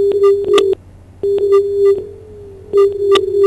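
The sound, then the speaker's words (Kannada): Telephone busy tone after a phone call drops on air: three steady, mid-pitched tone bursts separated by short gaps, with clicks at the edges. “ಕರೆಯಲ್ಲೇನೋ ವ್ಯತ್ಯಾಸ ಉಂಟಾಯ್ತು.”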